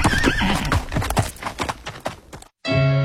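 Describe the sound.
A pony neighs while its hooves clip-clop in a busy, rhythmic patter. After a brief silence, a steady sustained tone begins.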